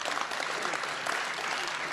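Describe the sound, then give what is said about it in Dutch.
Applause for a young, newly appointed council member at a council meeting: a steady, dense patter of many hands clapping at an even level for the whole short stretch. “Dan, dan geef hem een groot applaus.”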